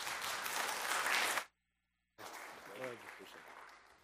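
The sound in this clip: A church audience applauding a speaker: dense clapping breaks off abruptly, then after a short silence returns more loosely, with a voice heard over it.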